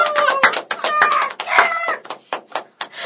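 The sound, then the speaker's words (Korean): A crow caws in a rapid run of many harsh, rasping calls, loud and choppy, with short gaps between bursts. “까마귀가.”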